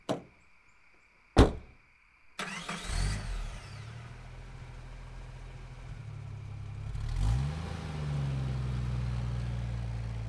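A car door thuds shut and a car engine starts, then runs with a steady low rumble and two brief revs as the car is driven.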